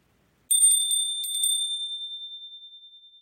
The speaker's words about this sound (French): À chaque fois que tu entendras cette cloche, il te faudra tourner la page.